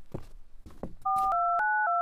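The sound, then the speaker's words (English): Touch-tone telephone beeps play as someone dials 911. A quick run of beeps follows several softer sounds, each beep a different pitch, sounding back to back. “Would you be able to dial 911 for Santa?”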